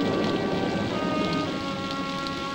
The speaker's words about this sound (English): Rain runs down his face and drips off his nose and ears.